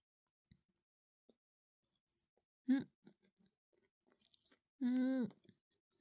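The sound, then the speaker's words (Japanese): Faint, wet chewing of chicken comes in soft clicks and smacks, broken up by two short voiced hums of enjoyment amid near silence. “チキンさえ食べてしまえばこっちのもん。”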